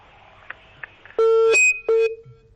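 Disconnection beeps as a listener's phone call drops during a call-in: faint line hiss and a few small clicks, then two loud, steady mid-pitched beeps with a brief higher tone after the first.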